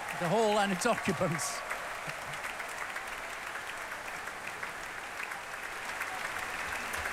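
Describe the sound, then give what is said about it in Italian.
Concert applause for an orchestra and its soloist: a voice speaks briefly at the start, then steady, dense clapping continues at an even, moderate level. “molti applausi per l'orchestra e per il solista.”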